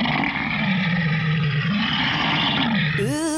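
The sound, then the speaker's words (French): Golems roar as they approach in an audio drama effect: a steady, deep, growling roar that wavers in pitch, ending with a sharp rising tonal sweep. “En fait, c'est un gros bruit !»« Des golems ! Il en vient de partout !”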